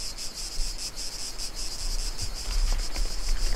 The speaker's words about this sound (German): Hört ihr den Wind? Hört ihr die Zikaden?